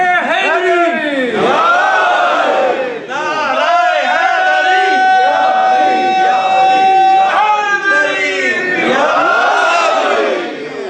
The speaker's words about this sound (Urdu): کیسے لگاتے ہیں نعرہ حیدری؟ لگاتے ہیں